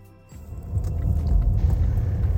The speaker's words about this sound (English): We're out in the streets of Glasgow this Wednesday night. I am driving around Merchant City